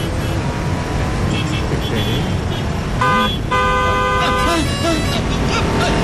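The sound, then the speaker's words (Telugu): A car horn honks twice over steady road and engine noise, first a short blast and then a longer sustained one. “Horn కొట్టినా మీకు వినిపించడం లేదు.”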